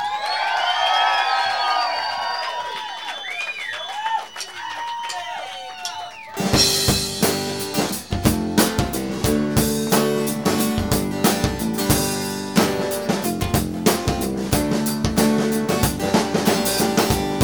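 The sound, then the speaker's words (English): A crowd cheers and whoops as a performer is welcomed to the stage, lively shouts for several seconds before music with a steady beat starts and carries on to the end. “Please welcome to the stage, Stargazer Lily.”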